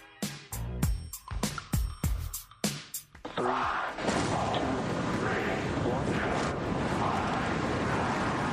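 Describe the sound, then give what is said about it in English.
A SpaceX rocket, the most powerful ever built, launches: after a few seconds of people talking, a loud, dense, low rumbling roar rises and holds steadily to the end. “SpaceX, the most powerful rocket ever in human history, just launched moments ago.”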